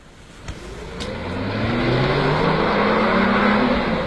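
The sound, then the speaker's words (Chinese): A car driving off: the engine accelerates with a rising pitch and grows steadily louder, after a couple of brief clicks at the start. “哎，愣着干嘛呢？开车去找。”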